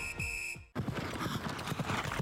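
Horse hooves clip-clop in a quick, dense run of beats at a trotting race held at a town fortress, following a steady electronic tone that cuts off abruptly.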